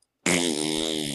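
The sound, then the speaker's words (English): A single loud, buzzy fart blown into a microphone, sustained for about one second with a rough, raspy tone after a moment of silence. “It's a mean old fart. Let her rip. Hashtag he just farts into the microphone.”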